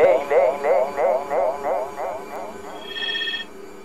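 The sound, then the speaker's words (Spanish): Telephones ring in a studio with a run of repeated warbling electronic pulses in a steady rhythm. The pulses grow fainter, then a brief higher, steadier tone sounds near the end. “suenan teléfonos en el estudio. Cosas importantes han de pasar.”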